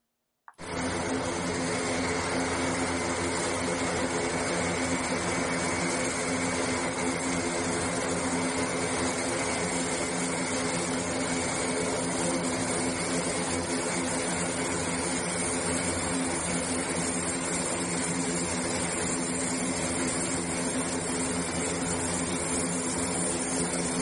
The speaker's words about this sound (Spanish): el vídeo de cómo llegan los primeros eh, evacuados de Afganistán aquí a España, de cómo aterriza ese, avión, ese avión del ejército